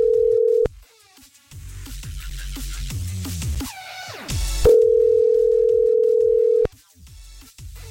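A telephone rings on and on with no answer: a loud, steady single-pitch ringback tone, one burst cut short and a second held about two seconds, separated by a stretch of music-like sound.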